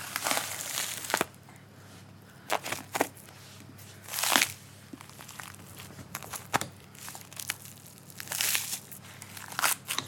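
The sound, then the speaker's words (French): Crunching and cracking as a small carcass is broken into pieces during butchering, with several sharp, irregular bursts over quiet handling noise and no talk. “ce que je vais faire dans un premier temps, c'est que ça, c'est la carcasse. Je vais la casser en plusieurs morceaux.”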